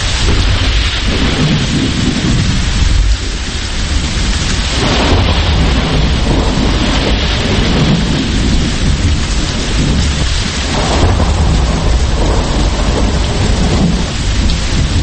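Heavy rain pours down without a break during a thunderstorm, loud throughout, with deep rolling rumbles of thunder swelling beneath the hiss of the downpour.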